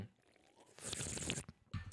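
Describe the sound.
A voice imitating a little sipping sound, ASMR style: very faint, close mouth noises with a wet, slurping squish in the middle and a short crisp smack near the end.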